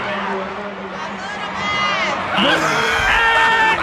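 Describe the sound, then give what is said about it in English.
A loud audience cheers, screams and whoops as actor Michael Ealy is announced. Many voices blend into a sustained roar that grows louder partway through and keeps going without a break. “And here's Michael Ealy gets announced. And listen to the audience, though. They wouldn't stop. This went on for about a minute or two.”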